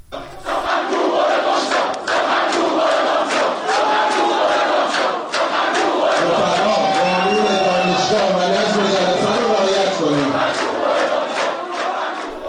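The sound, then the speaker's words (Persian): Loud, many-voiced shouting from students protesting at a university. The crowd noise stays dense and continuous throughout, with overlapping voices yelling and chanting. “دانشجویان خواستار بیرون رفتن و اخراج او از دانشگاه شده بودند. صدای یکی از این اعتراض‌ها رو بشنویم الان.”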